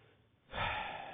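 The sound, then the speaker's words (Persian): After a brief quiet, one noisy intake of breath comes from an out-of-breath speaker pausing mid-talk to recover. “یه نفس یه ذره تازه کنم، ببینم اون قسمت بعدی صحبتو میتونم بگم با این نفس بریده یا نه.”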